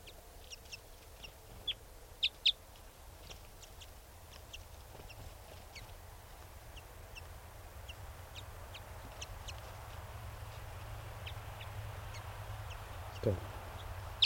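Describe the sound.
Birds, including an adult female, trade greeting songs. Many faint, short high chirps are scattered irregularly over a steady low hiss.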